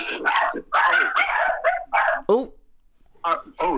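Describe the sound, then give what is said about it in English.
A dog barks with a sharp, high yelp amid people talking; the barking is brief and sits between stretches of conversational speech. “we've had a little bit of a dog drama going on here.”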